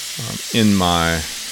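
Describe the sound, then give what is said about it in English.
Meat and vegetables cooking down in a stir-fry pan sizzle and hiss steadily, a constant bright frying noise under a voice that rises briefly over it. “So I'm cooking this down just to the point where I don't see as much pink.”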